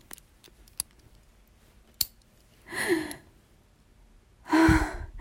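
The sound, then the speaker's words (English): A lock clicks shut on a collar: a few faint ticks, then one sharper metallic click, followed by two breathy sighs or gasps. “That sound. The click of the lock. Oh my God, it's locked on me.”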